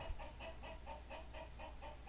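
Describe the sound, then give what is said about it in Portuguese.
Rooster calls, a quick series of about nine short, evenly spaced clucking notes over roughly two seconds, steady in rhythm and loudness, with a low constant hum beneath. “É no Cantar do Galo que a gente está aqui, né?”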